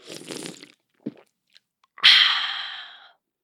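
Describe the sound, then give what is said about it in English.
A cold drink is opened and sipped: a soft rustle, a faint tick, then a sharp hissing burst that gradually fades over about a second. “I'm cracking open a cold one, and I'm taking a sip.”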